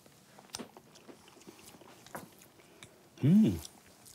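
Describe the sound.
Faint, soft chewing of a peppered blood-based food, a few irregular moist clicks and smacks spread over several seconds, followed near the end by a brief louder voiced sound.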